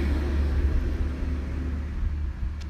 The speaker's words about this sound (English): I'm watching a truck go by me now. I'm still on my porch.